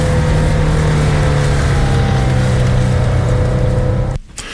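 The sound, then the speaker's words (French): A car engine drones steadily as the vehicle leaves town and speeds up, a loud, even hum with a low tone held throughout, cutting off abruptly near the end. “Sortie d'agglomération. Donc ? Oh, on accélère. Eh oui, on accélère. Pas trop.”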